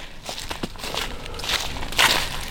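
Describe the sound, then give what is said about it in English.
Footsteps of someone walking up a hill outdoors: a steady series of soft, crunchy treads that get a little louder toward the end. “I'm walking up a hill now.”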